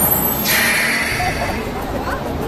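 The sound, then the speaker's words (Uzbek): A bus pulling in to stop with a burst of air-brake hiss that swells early, then slowly fades over a steady low engine rumble. “Hay bolam, bu avtobus Hasanboyga boradimi?”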